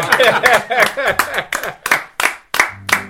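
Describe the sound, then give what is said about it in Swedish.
Hands clapping at the close of an interview, a handful of sharp, uneven bursts of applause mixed with voices speaking. “Och nu får vi applådera för er.”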